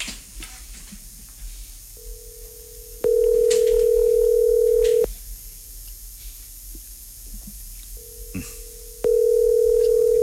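A telephone call rings out on the line as two long, steady tones separated by a pause. Faint background noise sits underneath.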